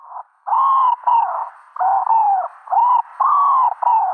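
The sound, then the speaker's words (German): Wood pigeon calling in a series of soft, low hooting coos, several short phrases separated by brief pauses in a steady rhythm, heard alone with no talk. “wenn man diese Regel befolgt, dass man also die Silben zählt, dann kommt man auf die richtige Art, nämlich die Ringeltaube. Ich spiele sie nochmal ab”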